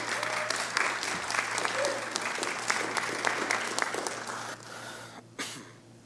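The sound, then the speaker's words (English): Audience applause welcoming a guest speaker to the stage, many hands clapping at a fairly even level before it thins and fades out near the end. “So would you put your hands together and welcome Phillis up to the stage?”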